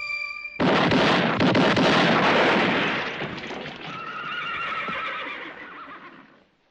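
A mule whinnies in a long, loud, harsh call that bursts in abruptly, holds strong for a couple of seconds, then tapers into quieter wavering tones before fading out.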